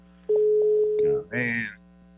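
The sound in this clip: A steady, mid-pitched telephone line tone sounds for about a second while a call is placed, followed by a brief voice.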